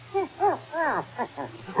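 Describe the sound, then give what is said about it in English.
A dog barking near a golf course, a run of several short, tonal barks with arching pitch, spaced irregularly and heard alone over a low steady hum. “Oh, it's only a dog. Here, doggy, doggy.”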